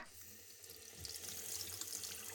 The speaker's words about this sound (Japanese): では髪をお湯で流してからシャンプーを泡立ててマッサージしますね。お湯を出しますよ。